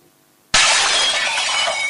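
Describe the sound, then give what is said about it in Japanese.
A glass window shatters in one sudden loud crash, followed by a sustained bright tinkling and rattling of breaking glass that continues to the end. No voices are heard. “ま、窓が割れた。 まったくもう、窓開けようとしたら間違えて窓を割っちゃったよ。”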